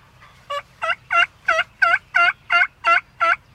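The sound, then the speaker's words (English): A big wild turkey tom, about three years old, gobbling during spring hunting season: nine loud, rhythmic, rattling bursts in quick, even succession, with no talk. “big old Tom. He's got to be a three-year-old bird.”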